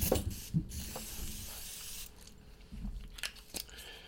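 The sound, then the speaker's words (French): A water spray bottle gives a few short, hissing spritzes with quiet gaps between them. The bursts are brief and soft, and no voice is heard. “deux secondes je vais mettre un petit peu de de spray à l'eau.”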